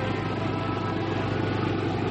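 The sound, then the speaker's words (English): A car drives toward a newly bought cottage on Cape Cod, giving a steady low rumbling drone of engine and road noise with little change throughout and no talking. “Daisy and Pete are now in Cape Cod, driving toward the cottage they've just purchased.”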